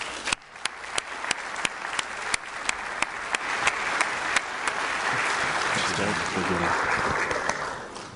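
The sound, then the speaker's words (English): Audience applause welcoming a speaker to the stage: dense, steady clapping with a few sharper individual claps standing out early, holding at an even loudness before easing slightly at the end. “Would you put your hands together and welcome Dr. Brooks Tomei.”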